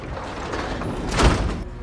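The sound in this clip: Elevator doors sliding as people board: a steady rushing whoosh with a soft thud of the doors near the end.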